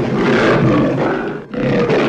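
A lion roars loudly and continuously, a deep, rough, rumbling growl that breaks off briefly near the middle before surging back.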